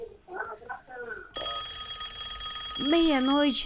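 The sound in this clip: A telephone rings for a listener's call on a late-night radio call-in line. Brief talk comes first, then a steady, bright electronic ringing tone holds until the end, with a voice rising over it in the final second.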